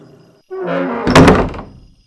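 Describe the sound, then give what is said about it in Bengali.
A room door swings and is pushed shut: a brief groaning creak rises out of silence, then a single solid thunk lands as it closes, trailing off quickly. “আমরা ঘরে ঢুকে বসলাম দরজাটা বন্ধ করে দিলাম”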